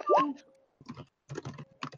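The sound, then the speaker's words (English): Mouse clicks on an on-screen button, a few faint, dry taps scattered between short bits of talk. “Oh, I clicked it and nothing happened.”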